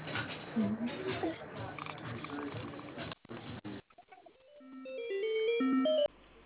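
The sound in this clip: Telephone ringing tone while a call is being transferred: after a stretch of talk, a short electronic melody of stepped tones plays, growing louder and then cutting off abruptly.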